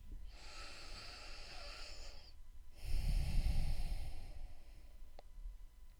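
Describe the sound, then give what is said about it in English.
A single deep breath during a guided meditation practice: a long, hissing inhale, a short pause, then a fuller, lower exhale, fairly quiet and heard alone. “Let's begin by taking a breath.”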